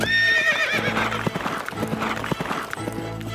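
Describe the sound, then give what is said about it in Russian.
Horse galloping downhill, its hooves clip-clopping in a quick, uneven rhythm, with a high whinny at the start; no voices. “Рыцарь помахал ей копьем. «Будь здорова, матушка-старушка!» Крикнул он и поскакал под гору во весь опор.”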